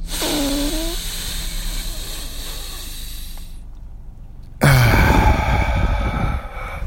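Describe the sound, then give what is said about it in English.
Group of people at a conference breathing deeply and loudly, in through the nose and out through the mouth. A long breathy rush is followed by a brief lull, then a louder, fuller rush of breath. “Inhale through the nose and then exhale through the mouth, and you could breathe as loudly as you want.”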